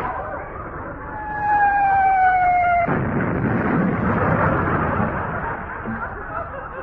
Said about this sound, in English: Heavens to Betsy, what do they load this thing with? I don't think it was the starting pistol, sir. I think it was a rather loud present from the home fleet. They must have thought you were firing at them,